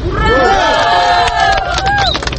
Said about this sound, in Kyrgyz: Мындай уранды угарызама тегеректе жүргөн милиция кызматкерлери кайрадан чогула калышты.